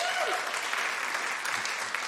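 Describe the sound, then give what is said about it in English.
Audience applause welcoming a couple onto a stage: steady, dense clapping from many hands that holds at an even loudness throughout, with no break. “Let me put our hands together for these two.”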